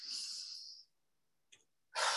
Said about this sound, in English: I'm going to just start for a minute and take a deep breath.